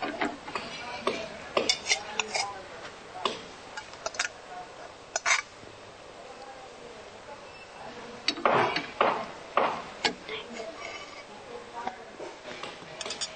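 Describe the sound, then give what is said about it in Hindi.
Clinks and scrapes of a spoon against a pot as cooked chickpea curry is poured into a serving bowl. Many irregular metallic taps come in short bursts, busiest near the end. “Gas बंद कर दीजिए। इसे हम serving बोल में पोर कर देंगे।”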